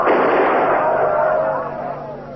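A gunshot fired into the air to silence a crowd: one sharp, loud blast right at the start, then a long rumbling tail that slowly fades.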